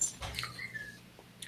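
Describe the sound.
A dog whimpers faintly, with a thin, high whine lasting under a second amid low background noise.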